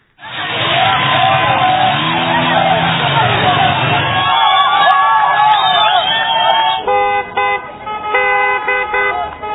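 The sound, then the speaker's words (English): A street protest over soaring oil and energy prices: car horns toot repeatedly over engine noise and a babble of crowd voices. The noise is loud and steady at first, then breaks into short, choppy honks and voices. “Here's the sound of some of those protests worldwide.”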